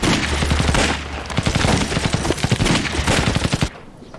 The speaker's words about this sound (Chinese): 队长，我明白了，要不我再放几个炮上过过瘾。